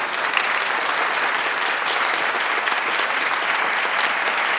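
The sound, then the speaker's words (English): An audience applauds after an author talk, a dense and even wash of clapping that stays steady for the whole few seconds. “Huge thanks to Jocelyn Johnson. Give a big hand.”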